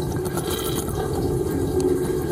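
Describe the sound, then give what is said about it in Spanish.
A dishwasher runs with water, giving a constant rushing, sloshing spray over a low mechanical hum. The sound is even and continuous, with no voices. “Es un lavaplatos”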